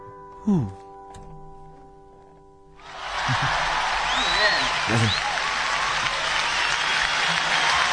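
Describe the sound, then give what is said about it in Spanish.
Audience applause bursts in after a brief stretch of voice and music. Many hands clap in a thick, steady wash that holds evenly for about five seconds. “¿cómo suenan las palmas de los chinos que están ahí encerrados? Salen un rato, aplauden y después regresan a la cueva.”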